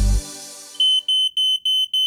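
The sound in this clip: A smoke alarm beeping in rapid, high-pitched chirps, grouped into about five short bursts, loud and alone after a fading low hum.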